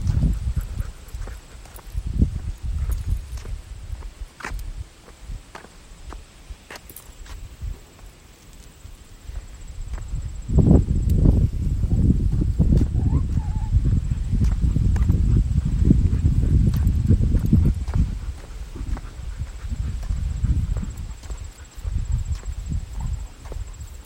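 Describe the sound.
Footsteps of a person walking outdoors, a steady run of soft steps over a low rumbling, rustling background that grows louder partway through and then eases.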